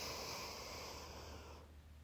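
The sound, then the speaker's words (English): A person takes a deep, slow breath in: a soft, airy inhale that holds steady for about a second and a half, then fades out, heard quietly on its own. “Let's do this together now. We'll take a breath in”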